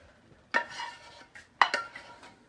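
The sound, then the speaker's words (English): A spoon scrapes food out of a container in a few scraping strokes, two of them sharper and louder, with softer scraping between them and no talk. “I'm going to see if I can get any more out with the spoon, which I can hear that I am getting some out.”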